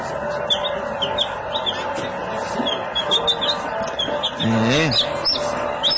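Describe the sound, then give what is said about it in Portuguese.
Baby chicks chirp on a farm, giving many short, high-pitched peeps in quick succession. A voice talks underneath them, with a louder, lower call near the end. “olha os pintinhos que fazem parte aqui da criação, né?”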